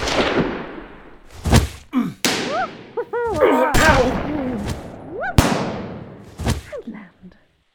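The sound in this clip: Gunfire cracks out in a few sharp, separate bangs spread across the scene, with people talking in the gaps between the shots.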